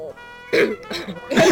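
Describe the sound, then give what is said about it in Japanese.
Throat clearing: a few short, rough, breathy bursts with gaps of quiet between them, the last one the loudest and longest. “咳払いをね、 止めようか止めようか”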